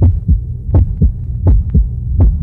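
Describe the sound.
A heartbeat thumps in a steady, low, muffled pulse, each beat a doubled thud, repeating a few times against a faint hum.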